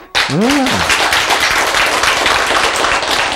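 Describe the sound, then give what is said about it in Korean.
An audience claps during a religious talk. A brief voice at the start gives way to steady, dense clapping that holds at an even level to the end. “박수.”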